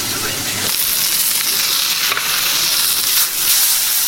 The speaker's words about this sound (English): Burger flip. Time to put a bit more crust on the other side.